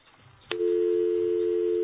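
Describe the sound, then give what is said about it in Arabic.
A telephone line cuts out during a radio call-in. A single click gives way to a steady, unbroken telephone tone that holds at an even level to the end. “عم يقطع الخط. عم يقطع الخط.”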